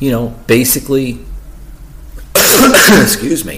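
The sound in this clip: A cough from a tickle in the throat, a harsh, rough burst that breaks in after a stretch of speech.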